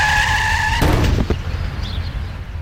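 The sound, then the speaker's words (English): A car skids at 40 mph toward a child, its tires giving a steady, loud squeal for nearly a second before a sudden broad impact cuts it off. A rougher, fading rumble of noise follows. “This is the sound of a child being hit by a car at 40 miles an hour.”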